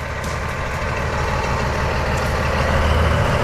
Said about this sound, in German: So klingt es, wenn 1100 PS eine V100 Diesellok in Bewegung setzen.